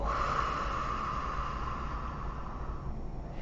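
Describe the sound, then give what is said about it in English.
A deep breath drawn in and let out: a long, steady, breathy rush of air that holds evenly and then eases away toward the end. “Breathe in and out.”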